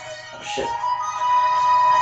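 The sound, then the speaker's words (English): A telephone rings with a steady, high electronic tone that begins partway through and holds to the end, after a brief muffled sound. “What am I hearing? That is the phone.”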